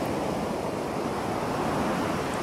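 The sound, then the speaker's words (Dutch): Calm sea surf washes ashore in settled weather after no storm: a steady, full hiss of water with no separate breaks standing out, continuous at a moderate level and without voices. “Want even, als we aan de zee denken, dan horen wij gewoon dit.”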